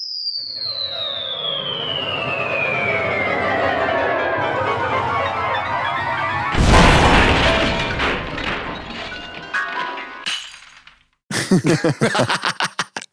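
A sound effect of a piano crashing down: a long whistling tone falls steadily in pitch, then a loud booming crash with clattering debris, and finally a burst of rapid rattling impacts.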